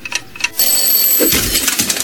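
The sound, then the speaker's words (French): An alarm clock rings on a morning during lockdown, a loud, continuous metallic ringing that starts after a short quiet moment and carries on steadily to the end. “Et c'est là que le réveil, avec une heure de décalage en ce matin de 14e jour de confinement, a sonné.”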